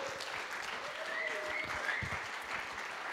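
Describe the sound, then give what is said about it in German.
An audience claps to welcome a guest onto a stage, a dense, steady wash of applause that stays even in loudness from start to end without breaks. “darum geben wir ihm doch einen herzlichen Applaus auf unserer Bühne.”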